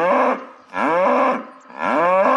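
A cow moos three times, each a long, deep, harmonic-rich low that swells and fades, with short gaps between them.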